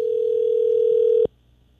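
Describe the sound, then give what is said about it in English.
A steady telephone dial tone as a call is placed, one continuous even hum of a little over a second that cuts off abruptly into quiet. “Had a chance to make this phone call yesterday for this Christmas wish. Here we go.”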